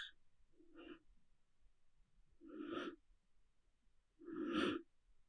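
Yogic pranayama breathing: a few slow, breathy exhalations and inhalations separated by quiet pauses. The breaths are soft and airy, and the later ones grow louder and longer.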